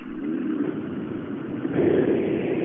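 A rally car drives past at a rally event with a steady, muffled engine roar that swells louder toward the end.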